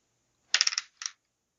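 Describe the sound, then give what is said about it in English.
A small die is rolled and clatters in a quick run of rapid clicks that taper off, then rattles briefly once more. The sound is faint, with no voices. “roll one more die real fast and let me know if it's a success.”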